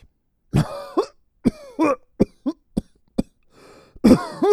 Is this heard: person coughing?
yes